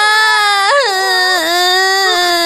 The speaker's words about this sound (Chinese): 先别哭了，姐姐。